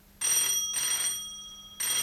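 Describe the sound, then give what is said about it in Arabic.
A telephone in a furnished room rings at about six in the evening, its bell sounding in short repeated bursts with bright, steady tones, and a new ring starts at the very end. “نحن الآن حوالي 6 مساء. تدخل وولترز لترد على التليفون.”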